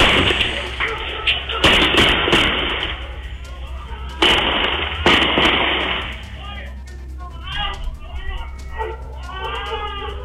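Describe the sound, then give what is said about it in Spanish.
Pistol gunshots from a real recording of a shooting: several sharp, loud cracks in two clusters a couple of seconds apart, over a steady background noise, followed by people's agitated voices. “Acá uno puede deducir que efectivamente no hay una automática, sino más bien probablemente hay pistolas que efectuaron,”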